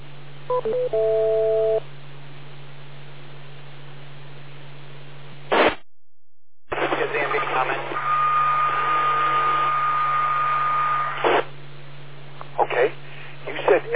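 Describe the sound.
A steady radio test tone sent on a strong S9 plus 30 signal over a 15-foot straight-line path, heard through hiss and a constant low hum, with brief bursts of sound, a short dropout, then a sustained mid-pitched tone for a few seconds.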